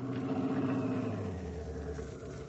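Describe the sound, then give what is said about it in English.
A car engine hums low and faint as the vehicle pulls up and stops in front of a new house, its steady rumble easing off toward the end. “do you want me to drive by and stop? No, stop right in front of the house.”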